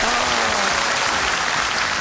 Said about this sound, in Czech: Krásná hra, velký potlesk ještě.